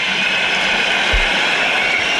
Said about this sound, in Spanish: Aplausos y pitidos.